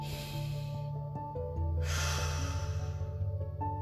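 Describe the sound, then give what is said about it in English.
A deep breath taken during a guided mindfulness exercise: an audible airy inhale surges up midway and then tapers off, heard over a soft, steady bed of sustained musical tones, with no speech. “Take a deep breath with me again.”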